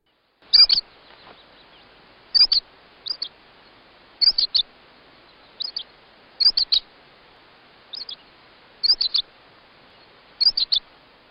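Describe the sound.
A voice imitates bird chirps as bird language, like a blue jay: many high, sharp chirps in short pairs and triplets, repeating at a steady pace with no talk.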